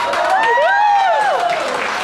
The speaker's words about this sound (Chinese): 鼓掌。